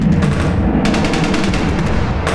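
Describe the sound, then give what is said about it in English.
Heavy gunfire as soldiers open fire on an incoming enemy: dense, rapid bursts of shots overlapping into a loud, continuous barrage from start to finish. “Enemy incoming! Orders, Sergeant! Open fire!”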